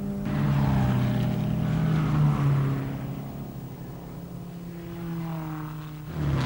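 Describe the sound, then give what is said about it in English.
Lancia Ferrari racing cars round the Carousel on the Nordschleife circuit with a droning, harmonic engine note. The sound stays loud at first, sinks lower and softer midway, then swells again briefly at the close. “The Lancia Ferraris round the carousel.”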